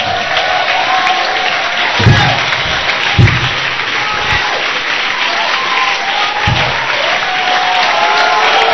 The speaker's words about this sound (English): if you want to clap, clap.